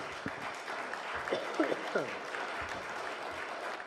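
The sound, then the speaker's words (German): Audience applause following a literary reading: a soft, steady bed of many hands clapping while a voice speaks briefly over it. “Dankeschön. Applaus”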